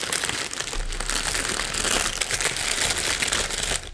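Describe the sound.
Letter paper crinkles and crackles as it is crumpled and handled, a dense, continuous rustle lasting about four seconds with no voices.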